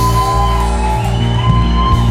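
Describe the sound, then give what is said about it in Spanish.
A church audience shouting praise together, a loud, dense mass of voices held in one continuous roar for the whole clip. “dale un grito que exalte su nombre en esta casa. Dale un grito que rompa los cielos.”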